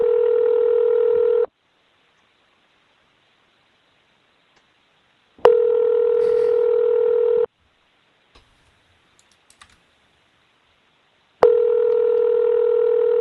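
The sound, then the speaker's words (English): Telephone ringback tone while a call rings unanswered: three steady, buzzing single-pitch rings of about two seconds each, separated by long silent gaps, with a few faint clicks in one gap. “Why am I letting the phone ring so long?”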